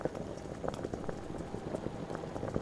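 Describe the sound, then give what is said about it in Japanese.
Water boils in a pot, a faint, steady bubbling and popping that carries on without a break and with no voices over it. “鍋の方は、いい感じに沸騰し始めたわね。”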